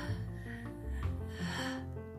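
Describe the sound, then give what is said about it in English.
A slow, soft deep inhale taken at the start of a guided affirmation exercise, faint over gentle sustained background music. “Now let's get started by taking a deep breath in.”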